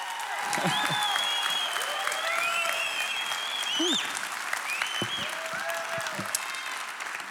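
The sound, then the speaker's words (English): A church audience applauds to welcome a speaker to the stage. Sustained clapping runs throughout, with several whistles and cheers rising over it. “Tim is speaking this weekend, so would you please put your hands together and welcome Tim now.”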